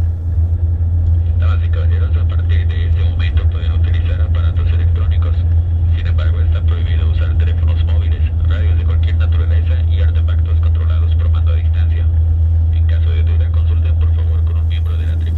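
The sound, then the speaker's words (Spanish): A steady, loud, low rumble of an airplane cabin during a flight drones without a break, with a voice heard over it for most of the time. “Me gusta volar, me gusta el sonido del aeropuerto, me gusta el sonido del avión.”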